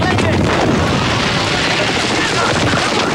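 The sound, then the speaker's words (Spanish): Battle din from a war film beach landing, with a grenade bursting in the sand amid gunfire: a loud, continuous roar of blasts and rapid shots with no let-up. “Una granada estalla en la arena y varios soldados vuelan como peleles.”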